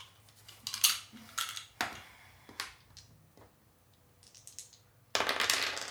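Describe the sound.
Two six-sided dice are rolled, giving a few sharp, faint clicks and clatters spread over several seconds, then a louder burst of rattling near the end.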